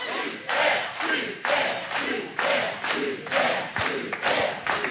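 A game-show studio audience cheers, urging the contestants to try the 1000-euro question. Many loud, rhythmic bursts of crowd shouting and chanting repeat at a steady pace throughout.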